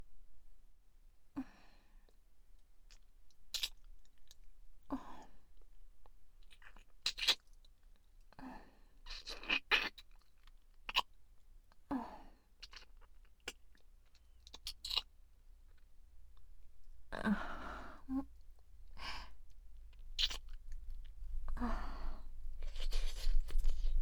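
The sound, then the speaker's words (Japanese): Wet licking and mouth sounds from close-up ASMR face-licking roleplay: many quiet, irregular clicks, smacks and slurps separated by near silence, growing denser and louder toward the end. “それではお顔舐めさせていただきますね。”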